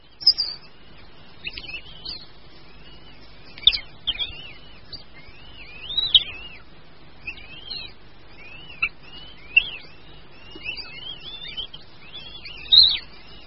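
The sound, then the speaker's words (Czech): Fledged young goshawks begging loudly from their parents, giving many thin, high-pitched calls at irregular intervals over a quiet background. “což je doprovázeno hlasitým žadoněním mladých jestřábů”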